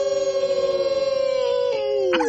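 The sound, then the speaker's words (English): A wolf howl: one long, sustained note that stays level and full, then drops in pitch near its end. “One of our mighty favorites is the Mighty Wolf in Virginia. We always bring him in respectfully in 3, 2, 1.”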